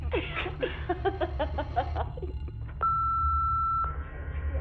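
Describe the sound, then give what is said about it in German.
An answering machine sounds one steady, pure, high-pitched electronic beep that lasts about a second, after brief muffled voices and laughter. “Hinterlassen Sie eine Nachricht nach dem Piepton.”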